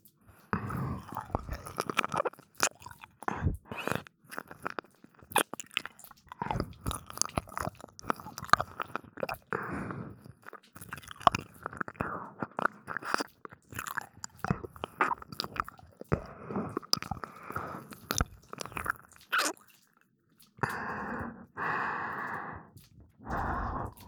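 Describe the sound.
Mouth sounds of chewing and biting on an ear: many soft, wet, crunchy bites and smacks in an irregular stream, with breathy sighs between them and a short pause near the end.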